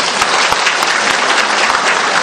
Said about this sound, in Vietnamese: Vỗ tay cho quý vị.